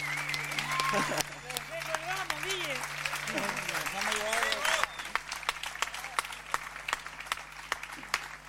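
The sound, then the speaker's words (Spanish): An audience applauds a band's wind players at a live music show, with dense clapping under a voice and shouts at first, then continuing alone with scattered sharp claps. “Fuerte ese aplauso para los pibes, los vientos acá, por favor.”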